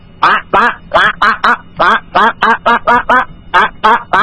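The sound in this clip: A human voice imitates a duck with many loud, nasal quacks in quick succession, each short and raspy, in a steady, rhythmic run.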